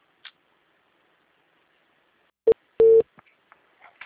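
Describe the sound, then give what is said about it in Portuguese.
Telephone tones follow a dropped call: one short beep, then a slightly longer one, with a few faint clicks around them. “Eu vi que a ligação caiu, né?”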